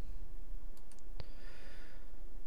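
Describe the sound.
A computer mouse gives one sharp, short click while an oval is selected in image-editing software. A couple of faint high ticks come just before it, all over steady low background noise.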